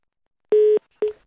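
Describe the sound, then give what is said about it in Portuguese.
Dial tone after a phone call drops: two pure, steady electronic beeps, the first lasting about a quarter second and the second cut shorter, with silence around them. “Ah, caiu a ligação”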